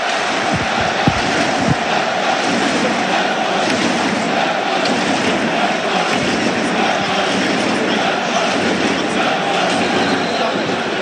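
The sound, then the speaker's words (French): Football stadium crowd roaring after a goal, a dense, steady wall of cheering noise that holds at full strength from start to finish without breaks. “Écoutez le stade.”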